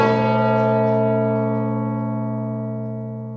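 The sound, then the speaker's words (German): A single strike of a large church-style bell in a college tower rings out loudly, then its rich, steady overtones hum and slowly fade across the whole stretch without a second blow. “was ihr da hört, ist der Great Tom. Das ist die Glocke im Tom Tower von Christchurch College.”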